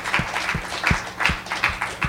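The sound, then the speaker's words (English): A church audience claps their hands in unison: six sharp, even claps at a steady beat, with no talking. “Give them both a hand clap.”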